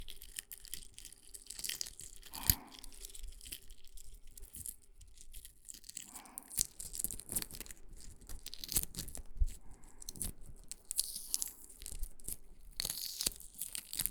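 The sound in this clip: Crisp crackling as the shell of a boiled egg is peeled, with many small, dry cracks, crunches and crinkles scattered unevenly throughout, fairly soft and with no talking.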